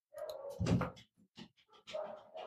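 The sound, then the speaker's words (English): A dog gives faint barks and whimpers in a few uneven bursts: a longer opening sound, several short yelps, then another longer stretch at the end. “I heard that dog.”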